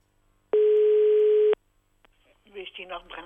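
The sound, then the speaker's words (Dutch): A telephone ringback tone plays while calling an elderly resident: one steady, mid-pitched beep lasting about a second. After a brief pause, someone starts speaking. “laten we even wat bejaarden gaan bellen in het straatje daar.”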